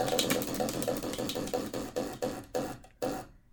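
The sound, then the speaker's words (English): Ticking of a spinning question wheel: a rapid run of sharp clicks that gradually spaces out and slows, ending in a few last ticks before the wheel stops. “But on that note, should we start spinning our wheel of questions?”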